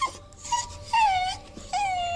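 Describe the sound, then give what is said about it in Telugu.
A dog lying at the front doorway whimpers. It gives four high, thin whines with no talk, and the last two are longer and louder. “చూడండి వాళ్ళు వెళ్ళినప్పటి నుండి మొహం పీలగా పెట్టి ఎలా ఉన్నాడో అంటూ గుమ్మం ముందు పడుకున్న కుక్కను చూపించింది”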